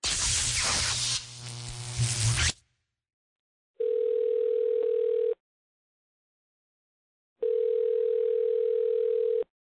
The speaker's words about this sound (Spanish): Damos inicio a la llamada.